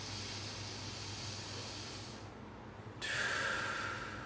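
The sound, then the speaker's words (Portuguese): A breath drawn in through the nose during a breathing exercise for pain control: a long, soft, airy hiss that grows slightly louder near the end, with no talk. “Puxar o ar pelo nariz.”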